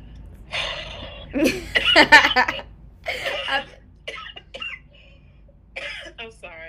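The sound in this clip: Coughing from a dry throat: a few rough, irregular bursts of hacking and throat-clearing, each short and fairly loud, separated by brief quiet gaps.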